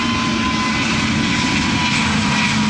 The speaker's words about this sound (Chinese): 这是 C-99 首架机在首飞前进行的一次滑行试验，这也是 C-99 第一次依靠自己的动力行走。